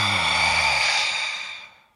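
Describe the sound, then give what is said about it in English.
One long, deep breath during a breathing exercise, heard as a loud, airy exhale through the mouth that slowly fades to quiet over about two seconds. “So just big inhale through your nose. Big exhale through your mouth.”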